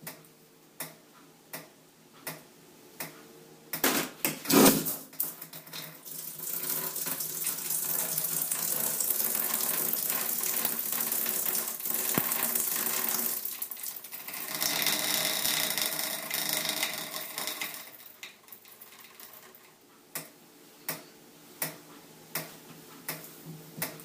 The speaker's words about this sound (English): Of the shower dripping. That's the sound of the shower dripping. And then the sound of the pressure release in the pipes once the shower is turned on.